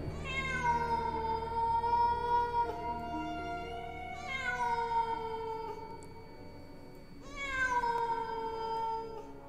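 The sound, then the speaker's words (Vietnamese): A cat meows at night, three long, drawn-out calls with rich harmonics, separated by short pauses and heard alone. “có tiếng mèo kêu rồi biến mất trong màn đêm”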